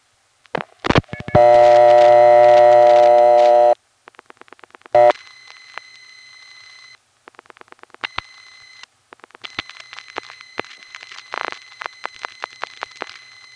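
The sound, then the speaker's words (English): Telephone line signals come through while a trunk is dialed to a number 1 crossbar exchange. Clicks lead into a loud, steady buzzing tone, followed by scattered clicks and a run of shorter, higher beeps and tones. “But wait, there is a number 1 crossbar, Trafalgar 3. Let's dial it.”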